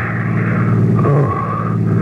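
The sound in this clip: Steady drone of a car being driven, a loud, continuous low engine and road hum with a tonal undertone holding evenly for about two seconds, with no voices.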